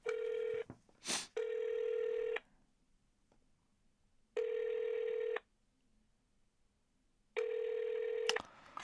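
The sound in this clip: A telephone call is placed and rings out: a short click, then a faint, mid-pitched ringback tone repeating in one-second bursts separated by roughly two-second silences, with no voices.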